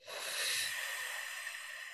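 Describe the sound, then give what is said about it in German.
A slow breath drawn during a relaxed breathing exercise sounds as one faint, continuous airy hiss that swells early and then eases off steadily. “Einmal einatmen und ausatmen.”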